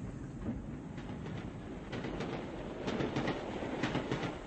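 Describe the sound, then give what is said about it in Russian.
A passenger train pulling out of a station gives a steady, rolling rumble with clickety-clack wheel rhythm that grows somewhat louder in the second half as it picks up speed. “Поезд набрал скорость.”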